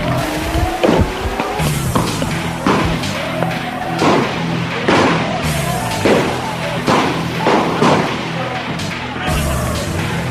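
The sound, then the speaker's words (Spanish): Gunshots and falling stones during a police dispersal of a crowd: many sharp, loud bangs and heavy thuds at irregular intervals over a constant rough background din, with no pause across the whole stretch. “Siguen cayendo piedras, escuchen los disparos.”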